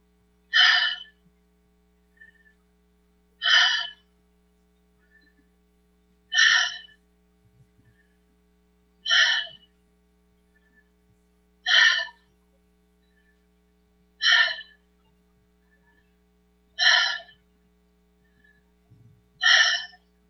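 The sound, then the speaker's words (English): Deep rhythmic breathing during a guided breathwork exercise. Eight strong breaths come at an even pace, roughly every two and a half seconds, with much fainter breaths between them and no talking. “We'll begin the 30 breaths. So, inhale and exhale. Inhale.”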